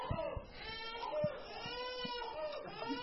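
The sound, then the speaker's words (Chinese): A baby cries and vocalizes in whiny, bleating wails with a fairly steady, mid-high pitch, while an adult voice is also heard. “你孩子，这孩子向我，他同意我的说法，他非常赞同我的说法，他在回应我哈。”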